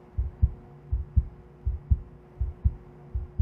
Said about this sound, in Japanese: 心臓の音が聞こえる。すごい、ドキドキしてる。